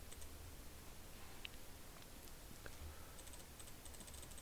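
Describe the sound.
Faint computer clicking while selecting a football player's stats, with a few sparse soft ticks over a steady low hum and no talk.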